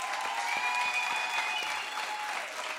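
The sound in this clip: Audience applause at a live event, steady dense clapping that holds at an even, moderate level for the whole stretch.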